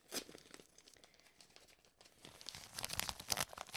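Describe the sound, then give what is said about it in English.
A hermetically sealed paper envelope is torn open during an award announcement, with crinkling and rustling that builds into louder, ragged ripping toward the end. “can't get the damn envelope open. Okay, hold on. They're hermetically sealed.”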